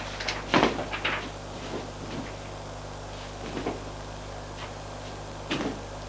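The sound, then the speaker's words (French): A wardrobe door opening: a few quiet wooden knocks and creaks, clustered at the start with fainter ones later, over a steady low hum. “Ouvre son armoire pour en sortir un smoking.”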